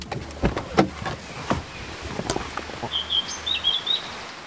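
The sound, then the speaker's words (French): Birds call outdoors by the water in the wind. A few high chirps stand out toward the end over uneven rustling gusts and patchy, splashy noise. “Des oiseaux et de l'eau. Voilà. Et du vent.”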